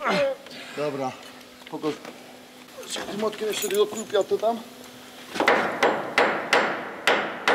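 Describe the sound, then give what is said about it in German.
A hammer strikes a screw: people talk first, then five sharp, ringing knocks follow in a steady rhythm. “Nee, schlag da nochmal drauf. Hilf mir mal eben. Da musst du noch mal draufhauen. Nochmal, okay.”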